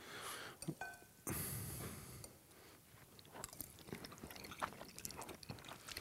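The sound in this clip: Someone eats spaghetti, making soft, wet chewing and mouth sounds that recur irregularly and stay faint throughout.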